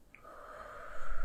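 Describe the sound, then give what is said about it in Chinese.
A slow, deep inhale during guided relaxation breathing swells steadily from near silence into a louder, airy rush of breath. “继续深呼吸，吸气，”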